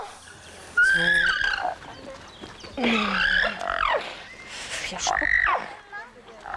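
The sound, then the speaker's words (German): A stallion protesting loudly while his mares are treated with an anti-parasite lotion: shrill, wavering neighs and squeals in a few loud bursts. “Es hört sich jetzt hier alles nur so schlimm an, weil der Hengst natürlich laut protestiert, was wir hier mit seinen Stuten machen.”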